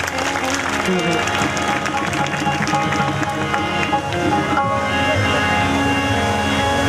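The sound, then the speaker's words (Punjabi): Loud applause from an audience, a dense, sustained clatter of clapping that continues throughout, mixed with a voice and tonal sounds. “ਇੱਕ ਵਾਰੀ ਸਾਰੀ ਸੰਗਤ ਨੂੰ ਮੇਰੀ ਬੇਨਤੀ ਹੈ ਕਿ ਇਹਨਾਂ ਦੇ ਨਾਂ 'ਤੇ ਔਰ ਇਹਨਾਂ ਦੀ ਮਿਹਨਤ 'ਤੇ ਜ਼ੋਰਦਾਰ ਤਾੜੀ ਲਾ ਦਿਓ ਸਾਰੀ ਸੰਗਤ ਹੱਥ 'ਚ ਕਰਕੇ।”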